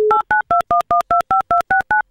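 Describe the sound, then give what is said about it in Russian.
Telephone keypad tones sound as a call is placed: a brief lower steady tone, then about ten short, evenly spaced dual-pitched beeps in a quick, regular rhythm. “Попытаюсь сделать финальный дозвон.”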